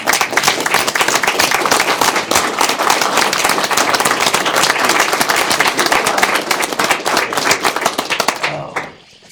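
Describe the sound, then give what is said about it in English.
Standing ovation for port staff at a port commission meeting, a loud, dense roar of many hands clapping that holds strong for about eight seconds before quickly dying away. “And I would like everybody else to rise and give them a standing ovation.”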